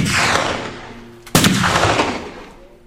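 Gunshots, fired at a wagon, ring out as loud booming blasts. A sharp crack midway is followed by a long, rumbling decay; no voices are heard.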